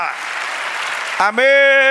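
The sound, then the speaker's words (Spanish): A church audience applauds the Lord, with dense clapping filling the first part. A loud, sustained voice then cuts in and takes over. “Dale un aplauso al Señor. Dale aplauso, iglesia.”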